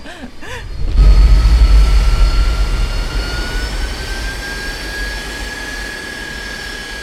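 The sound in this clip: Airliner jet engines spool up before takeoff from LaGuardia: a few faint clicks give way to a loud, rushing roar with a steady whine that climbs slightly in pitch, then settles into a sustained drone.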